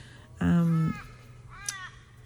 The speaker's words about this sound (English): Crow cry, that one.